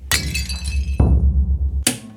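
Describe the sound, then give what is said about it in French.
A plate breaks during dish washing: a sharp crash of shattering crockery, then a few more clattering impacts of broken pieces, loud and without voices, over a steady low hum. “Je casse une assiette.”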